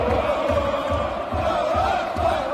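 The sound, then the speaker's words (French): Football supporters chant in unison from the stands at Stade Jean Bouin during a women's match attended by 13,000 people, a loud, sustained and continuous roar of many voices holding a steady tone. “Voilà, les supporters ont donné de la voix”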